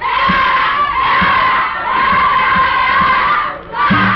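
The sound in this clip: An enthusiastic crowd in an auditorium cheers loudly during João Dias's contract signing with Rádio Bandeirantes. The thin, narrow-band recording carries a continuous, roaring mass of voices, with regular rhythmic thumps beneath and a brief dip before the cheering surges again.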